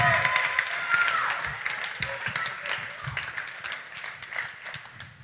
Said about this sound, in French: Du coup, on peut les applaudir pour qu'ils viennent, s'il vous plaît,